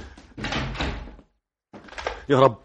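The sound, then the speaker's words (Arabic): A door shuts with a solid thump near the end of a dramatized scene, after stretches of voices and a short silence. “وبعدين بقى اخرج يقفل الباب ده”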